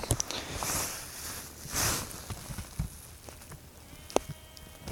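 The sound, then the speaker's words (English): Sheep bleat faintly as the flock moves, giving a couple of wavering calls over a soft, steady rustling background. The scene is quiet overall, with no voices. “sheep are on the move.”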